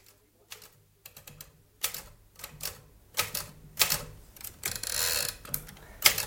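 Keys clatter on a children's typewriter in irregular clicks and bursts that start sparse and grow busier and denser, with no voices.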